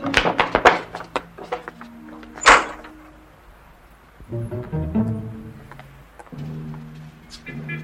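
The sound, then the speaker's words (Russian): The rear door of a bread delivery van opens with a sharp, solid thunk. Scattered lighter clicks and rattles come before it, and softer knocking sounds follow. “Открывают заднюю дверь хлебовозки, толкают его в фургон.”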